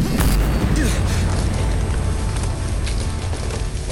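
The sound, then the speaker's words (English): An explosion blast roars at full strength from the start as a loud, dense, deep rumble, easing slightly over a few seconds. “That blast nearly cost Vigil his life. He escaped, singed, but otherwise unharmed.”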